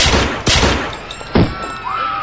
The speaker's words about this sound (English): Jesus, you just shot her in cold blood.